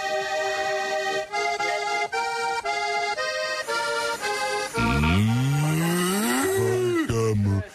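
A cow moos in a long, loud bellow that rises in pitch, following several seconds of steady tonal sound.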